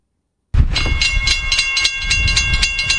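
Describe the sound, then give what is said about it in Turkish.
A tourist express train from Ankara arrives at Zonguldak station: after a brief silence, loud rail rumble sets in with a steady run of rhythmic wheel clacks and high, sustained metallic ringing tones. “Raylara düşen tren sesi Zonguldak garında yankılandı.”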